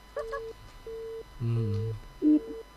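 A telephone busy tone after a call drops: a steady mid-pitched beep that pulses on and off about four times. A lower buzzing layer joins during one pulse.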